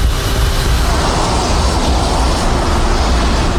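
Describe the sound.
Jet airliner engines are throttled up on the runway after a turn at its end. They make a dense, loud, even roar that holds steady from start to finish.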